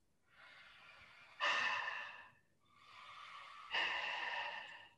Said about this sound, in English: Let's go ahead and do that breath that we worked on earlier, but I want to hear you do it.